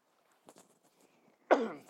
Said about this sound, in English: Got something in my throat. I think something flew in my throat.